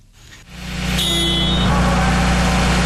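A heavy truck engine cranks and fires at a heavy-vehicle repair competition, then settles into a loud, steady, deep idling rumble that continues to the end.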